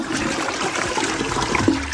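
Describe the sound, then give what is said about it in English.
Water rushes through a running toilet in a continuous, loud gushing and swirling hiss that holds steady for about two seconds, with no talk. “And that running toilet, hundreds of gallons a day.”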